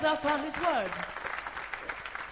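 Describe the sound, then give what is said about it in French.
A church audience applauding during worship: a raised voice rings out at the start, then moderate, dense clapping carries on steadily to the end. “Acclamons le Seigneur pour sa parole. Alléluia. Alléluia. Acclame très fort Jésus pour sa parole.”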